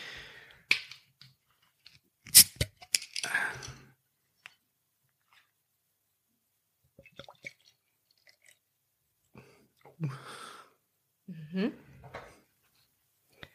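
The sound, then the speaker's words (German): A bottle of beer brewed with wheat malt, barley malt, hops and yeast is opened: a few small clicks and handling noises lead to a sharp crack followed by a brief hiss, then scattered quieter handling sounds. “Ich würde sagen, ich mache die Flasche mal auf.”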